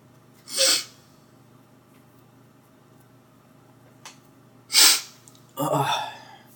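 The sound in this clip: Sneezing from allergies: two sharp sneezes several seconds apart, then a longer noisy burst of breath, over a low steady hum.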